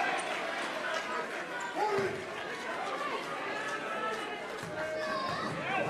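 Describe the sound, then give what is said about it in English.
Basketball dribbled on the court by a free-throw shooter in a college game involving Wisconsin. A few bounces rise over a steady hum of crowd chatter and arena noise. “Two dribbles, the set, the shot.”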